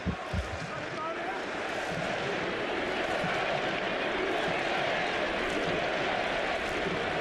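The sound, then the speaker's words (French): A stadium crowd at a football match against Senegal keeps up a loud, steady roar, with chanting for the USA rising from the noise throughout. “Et le public qui chante USA, USA.”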